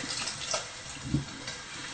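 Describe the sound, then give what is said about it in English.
Unsweetened soy milk pours into a sauce in a cooking demonstration, a faint, soft liquid splash and trickle with one slightly fuller gurgle near the middle. “Now, the other things that we're going to need to add to the sauce are some unsweetened soy milk. And once we've added this in,”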